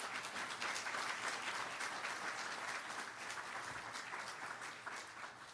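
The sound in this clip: Audience applause welcoming a speaker at a talk: steady, even clapping from many hands that keeps going for the whole stretch, fairly faint and with no pauses.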